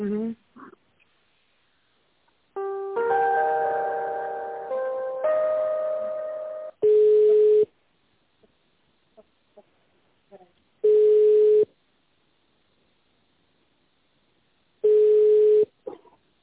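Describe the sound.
Telephone ringback tone on a connecting call: three steady mid-pitched beeps, each under a second, spaced about four seconds apart. A short run of stepped electronic tones comes first.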